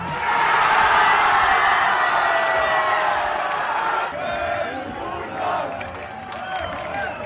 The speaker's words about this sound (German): Überall wurde gejubelt über den Sieg unserer Fußballnationalmannschaft. In Leipzig klang das dann Samstag so.